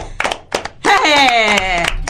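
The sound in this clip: A group clapping hands: a few sharp claps, then voices chanting together loudly over continued clapping.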